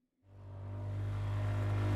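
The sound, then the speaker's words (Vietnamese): A motorbike throttles up and speeds away from a fishing village. The engine cuts in abruptly as a low, steady droning hum and swells continuously louder. “Rồi cậu vít ga, phóng vèo ra khỏi thôn chài.”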